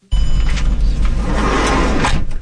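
A car's engine and road noise as it drives up a winding hillside road near a Palestinian town. The loud, steady rumble starts abruptly and continues unbroken throughout.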